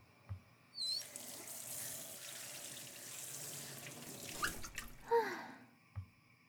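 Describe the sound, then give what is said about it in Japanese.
Running tap water while horse mackerel is rinsed clean, a soft, steady rushing hiss with a few splashes and clunks at the start and end, quiet throughout. “水で洗う。”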